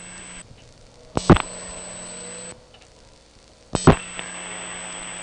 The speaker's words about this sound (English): I'll dial a 6 and then a 0.